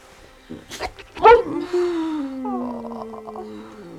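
A dog barks in the night near the coast: a few short yelps, then a long, drawn-out whine that slowly falls in pitch and fades near the end.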